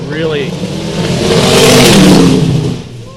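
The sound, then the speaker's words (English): Engine revving from a late-model LS1 car, swelling to a loud, sustained roar in the middle and then easing off, with voices heard at the start. “did I mention the guys with the late model LS1 cars with making their presence known through sound? Yeah, that was him.”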